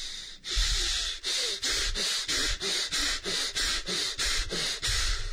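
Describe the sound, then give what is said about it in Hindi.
Rapid, forceful bhastrika pranayama breathing: many quick, even bursts of breath pushed in and out in a steady rhythm, each a loud rushing hiss with no talk. “सांस छोड़ना और लेना तेजी से हो, इसे हम भस्त्रिका प्राणायाम कहते हैं जी।”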